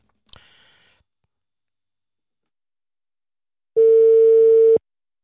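A telephone ringback tone sounds while a call is placed to someone: a brief faint noise comes first, then near silence, then a single steady mid-pitched tone holds for about a second.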